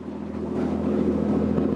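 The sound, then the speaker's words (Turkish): A boat's diesel engine runs with a failing injection pump, giving a steady, loud, low-pitched drone with dense rumbling pulses and some wind buffeting across the microphone. “Soldaki motordan duman tütüyor. Durumu kötü. Ve sağdakinin de enjeksiyon pompası berbat. O daha da sert vuruyor.”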